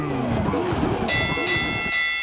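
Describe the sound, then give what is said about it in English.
A bell rings twice as a sports-news cue, two bright high dings striking in quick succession partway through and ringing on briefly while people keep talking underneath. “We got double bell for NFL news today.”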